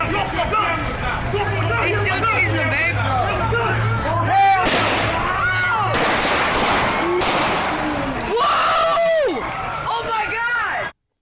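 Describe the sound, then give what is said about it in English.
Police taser and gunshots during a violent confrontation in which Los Angeles officers shot an unarmed homeless man: several sharp, loud bangs burst through continuous shouting voices. “Officers used a taser first. You can hear it in the background.”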